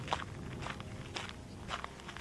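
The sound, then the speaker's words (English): Faint footsteps as a person steps away around a corner: a few soft, evenly spaced steps over a low background hiss. “I'll step around the corner.”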